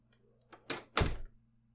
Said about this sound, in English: Hey! At least close the door.